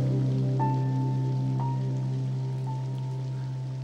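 Rain in a Halo video game soundtrack: a steady, hissing downpour over a low sustained drone, with three soft bell-like tones sounding one after another.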